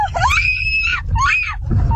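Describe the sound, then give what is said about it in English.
A woman screams from the passenger seat of a car while another driver swerves and brakes in front of them: two long, shrill, wavering screams over a steady low engine rumble. “The victim's wife screaming from the passenger seat.”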